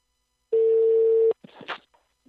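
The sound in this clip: A telephone dial tone heard while a call is being placed. A single steady, mid-pitched tone sounds clearly for just under a second, then stops abruptly. A few brief clicks and faint rustling handset noises follow.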